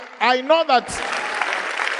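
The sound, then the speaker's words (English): Audience applause at a talk about God begins after a brief spoken phrase, then holds as a steady, even wash of clapping until the end. “Now, my expectations, you're clapping for God, not me”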